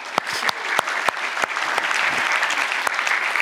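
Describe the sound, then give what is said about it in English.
A church audience applauds a man who was just baptized. A few sharp separate claps grow quickly into full, steady applause that continues to the end. “Let's give him a hand.”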